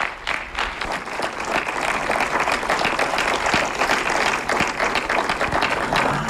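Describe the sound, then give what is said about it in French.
Audience applause for a guest at a school event: steady, dense clapping from many hands, loud and sustained throughout without a break. “je crois qu'on peut une dernière fois vous applaudir, parce que ça a été très fort.”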